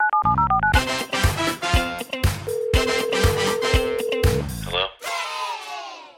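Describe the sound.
A rapid series of short, pure DTMF beeps as a telephone number is dialed to call someone with a birthday; the tones step between pitches in the opening moments, then give way to much louder, busier noisy sounds.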